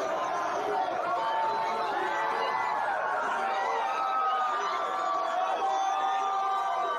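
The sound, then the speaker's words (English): A crowd chanting "USA" in a steady, loud, continuous wash of many voices with cheering mixed in, sustained throughout without pause. “oh here's another one there's a usa chant”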